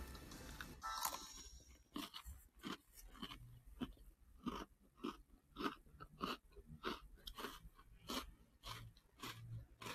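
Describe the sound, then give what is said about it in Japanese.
Crunchy chewing of a cookie, with many rhythmic bites and crunches repeating steadily at a quiet level, with no talk over them. “クッキー食べるクッキークッキー食べよ”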